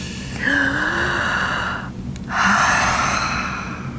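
Long, airy breath exhaled during a relaxation breathing exercise, a loud, steady rush of air that fades, then after a short pause another long breath swells and slowly tapers off.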